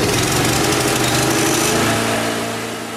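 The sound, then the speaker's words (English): A lawnmower engine runs with a loud, steady, rough drone that holds throughout and eases slightly at the very end, with no voices. “A lawnmower. It is a lawnmower.”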